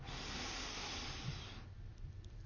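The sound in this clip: A slow, deep inhale heard as a soft, airy hiss lasting over a second before fading away, quiet overall with no talk.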